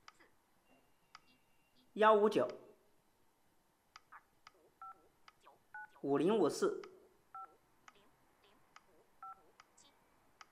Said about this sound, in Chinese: 现在我将用我的另一部手机往我的这个手机上打一些电话，我的电话号码是